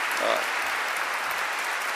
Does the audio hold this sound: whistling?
no